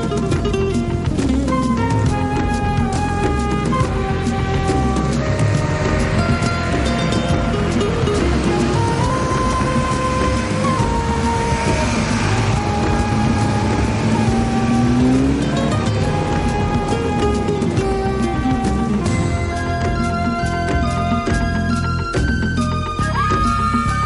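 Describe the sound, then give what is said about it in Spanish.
A car starts and drives off at high speed, a loud, continuous engine roar that fills the whole stretch without a break. “Por fin consiguen arrancar el coche y escapan de la zona a gran velocidad.”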